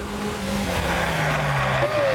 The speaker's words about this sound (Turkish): Bir de gaza bastığım zaman ivmelenmeyi hemen hissediyorum.